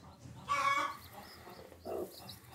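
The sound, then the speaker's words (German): A broody hen clucks beside her newly hatched chick on a farm: two short, raspy bursts of clucking over a low, steady background murmur. “Ihre Glucke braucht mit ihrem Küken jetzt einfach mehr Platz.”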